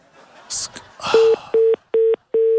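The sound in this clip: Telephone call tones play while someone places a call: a few short, steady, mid-pitched beeps in a regular on-off rhythm, preceded by a brief burst of voice and rustling.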